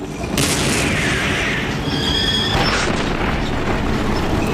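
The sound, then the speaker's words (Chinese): A tank cannon firing: a British tank opens fire in a tank battle across rough ground, with heavy booming blasts bursting over a loud, continuous rumble. “英国人率先开火，他们打响了坦克对战的第一炮。”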